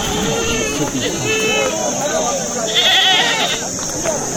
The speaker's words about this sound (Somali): guuxa iyo sabaxanka aad maqashaan waa saylada xoolaha deegaanka cadaad gari